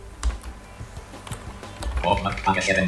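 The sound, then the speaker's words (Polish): Keys clicking on a computer keyboard as Enter is pressed on a bookmark tab in Adobe Digital Editions: a few faint, sharp taps, followed by a voice talking. “i teraz naciskam Enter na tym, na tej zakładce”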